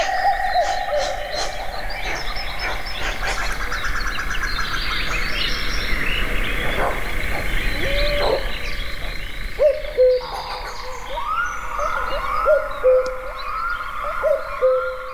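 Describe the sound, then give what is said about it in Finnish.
A May night outdoors, full of sound: repeated owl hoots, with short tonal hoot notes repeating through the second half, layered over a dense, steady chorus of bird calls and other night calls. “Juha Haikolan komeassa äänitteessä pääsen kuulemaan myös, miltä sama alue kuulostaa toukokuisena yönä, että miten täynnä alue onkaan ääniä.”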